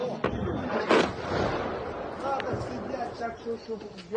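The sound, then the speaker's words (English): Ukrainian air defenses firing on an incoming missile strike, heard as a few dull, heavy bangs amid constant rumbling noise while people talk. “And Ukraine is shooting down many of these missile strikes with its own air defenses. Here are Ukrainians witnessing and recording such a moment just last week.”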